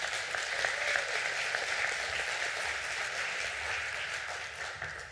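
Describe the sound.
Church audience applauding to welcome a speaker to the front, a steady, fairly faint wash of clapping that holds evenly and then eases slightly at the end.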